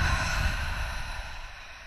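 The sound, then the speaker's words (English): A long, airy breath is released through the mouth during a guided deep-breathing exercise, one continuous whooshing exhale that slowly fades. “let's take a moment to take a deep inhale together and through our nose. Full exhale out of our mouth.”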